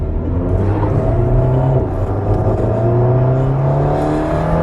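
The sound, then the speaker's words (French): An Alpine sports car drives on a race circuit during warm-up laps, its engine droning loudly and steadily from inside the cabin, with low rising and falling tones as it accelerates, and no voices. “Donc là, ça y est, on est parti sur le circuit au bord de cette Alpine.”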